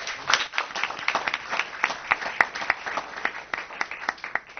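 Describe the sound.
A round of applause at a business association event, with many crisp, separate claps rising and falling in uneven bursts at a moderate level.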